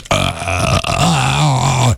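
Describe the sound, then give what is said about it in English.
One long, loud, deep burp after drinking a cold beer, a sustained guttural rasp lasting nearly two seconds before it cuts off. “It's like The Exorcist with a burp.”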